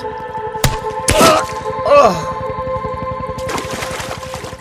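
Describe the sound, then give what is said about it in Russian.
A blow with a stick to a man's head during a struggle in water: a sharp crack, then a heavier thudding whack, followed by a gliding groan-like voice, all over a steady low rhythmic throbbing. “Мальчик одновременно ударяет Бориса палкой по голове.”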